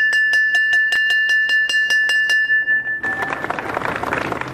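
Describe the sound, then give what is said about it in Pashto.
A bell rung to open the new school year at a provincial education ceremony strikes many times in a quick, even series of bright metallic rings, then stops and gives way to a burst of dense noise. “د فرا ولایت د پوهنې ریاست لخوا نن د نوي ښوونیز کال د پیل زنګ په مراسمو کې وژغول شو.”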